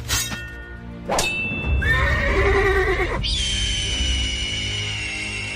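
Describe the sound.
A horse neighs loudly at a summer event of horse stunts, falconry and jousting displays: one long, shaking whinny that breaks into a second, higher and steadier call.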